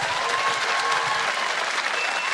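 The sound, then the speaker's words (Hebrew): Steady audience applause at a festival event, with many hands clapping in a dense, even wash at a moderate level. “ולתזמור את המאמנת הזאת, עוד כפיים, עוד כפיים.”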